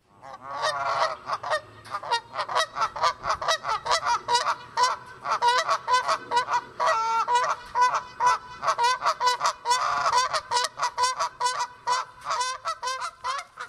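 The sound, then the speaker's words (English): Canada geese in Illinois honking: many loud, nasal honks in rapid, overlapping succession as a flock calls continuously from start to finish. “Some people think they're cute and misunderstood. Others think they're a nuisance and property invaders. But no matter how you look at them, Canadian geese have made Illinois their home.”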